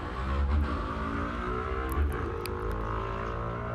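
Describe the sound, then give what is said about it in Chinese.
Loud engine roar from a car street racing at midnight, its exhaust modified to be louder, droning steadily with a couple of stronger revving surges. “哇，半夜有人在飙车，希望他路上小心，真的不要飙车”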